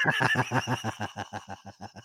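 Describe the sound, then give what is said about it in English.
A human voice imitates a horse's neigh with a fast, shaky whinny made of many quick pulses that gradually soften toward the end. “Well, he got real sassy with that one. He neighed the line, you know.”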